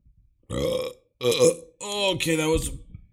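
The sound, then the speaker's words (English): A few loud, drawn-out voiced burps from a person in quick succession, each a croaking, strongly tonal belch separated by short silences. “okay, that was two burps.”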